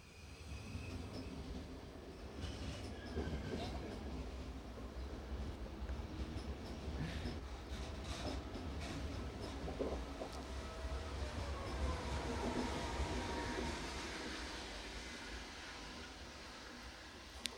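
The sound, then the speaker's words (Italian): A train passes with a continuous, loud rumble of wheels and carriages that holds steady from start to finish, with no voices on top. “No, c'è il treno, fantastico.”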